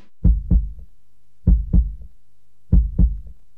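A human heart beats in a steady rhythm: three evenly spaced lub-dub pairs of low, dull thuds with short silences between them.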